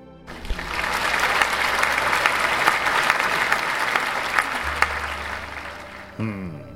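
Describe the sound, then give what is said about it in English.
Audience applause welcomes a star speaker: sustained, dense clapping from a crowd that swells and holds evenly for about six seconds, then drops away as a voice begins. “Would you all please put your hands together and give our wonderful star speaker a big warm welcome.”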